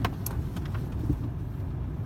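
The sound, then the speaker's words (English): A police car driving past on a street, heard as a steady, low vehicle rumble with a few faint higher clicks and rattles, continuous throughout and without any siren. “there's a police car driving past”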